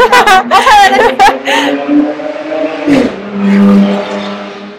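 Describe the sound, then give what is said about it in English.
A loud car revs and drives past outdoors. Its droning engine tone runs under people talking and chuckling, then surges briefly before settling into a steady hum. “I kind of want to keep this in because I hate cars that are fucking loud. Okay, so we're recording outside.”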